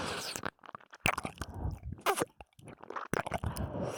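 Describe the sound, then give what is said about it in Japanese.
Someone eagerly chewing and devouring food, with many crunchy, wet bites and smacking clicks in a busy, irregular rhythm, fairly loud and with no talk. “むしゃぶりついてる。おいしい、おいしいって”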